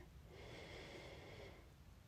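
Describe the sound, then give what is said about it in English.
A single slow, deep breath, a soft airy hiss that holds steadily for a couple of seconds before easing off, faint and alone without talk. “I like to just start by opening up, by taking a deep breath and breathing in”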